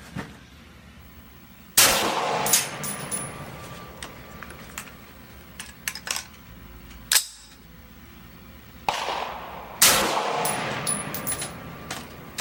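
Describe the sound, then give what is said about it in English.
Gunshots fired at a target on a shooting range: a few sharp, loud cracks spaced unevenly, each trailing off in a ringing tail, with lighter metallic clinks and knocks between them. “Let's go ahead and pick a new target, put three rounds on it, and we'll save the rest of these for the long range.”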